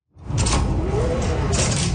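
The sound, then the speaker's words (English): A mini grocery store door, unlocked with a tap of a phone, slides open with a steady mechanical whoosh and rumble that starts abruptly and holds loud for about two seconds. “A door you can only unlock with the tap of your phone and inside a mini grocery store.”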